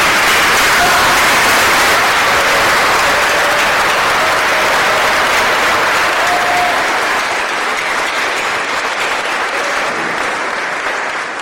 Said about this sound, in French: je vais vous demander de vous mettre debout et de faire une ovation spéciale pour Mika